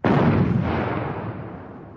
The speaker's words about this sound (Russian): Тут прогремел второй выстрел.